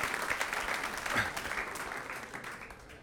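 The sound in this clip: An audience applauds to welcome a guest on a show. The clapping is steady and continuous and fairly faint throughout.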